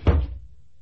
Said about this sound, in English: Mind you latch the street door when you go out.